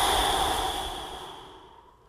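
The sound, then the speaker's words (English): A complete exhale pushed out through the mouth, one long breathy whoosh that starts full and trails off to quiet over about two seconds, with no talking. “Let me show you what it sounds like first, and then I will count for you and we can do it together. So first, exhale completely through your mouth.”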